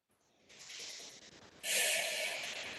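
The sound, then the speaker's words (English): A breath is pushed out slowly through pursed lips during an abdominal breathing exercise. The soft, airy hiss swells noticeably louder partway through and carries on to the end. “when you exhale, you're going to tighten those abdominal muscles and you're going to let your stomach fall downward and exhale through pursed lips.”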